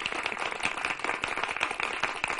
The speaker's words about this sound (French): Voilà, tous les étudiants et le public vous applaudit.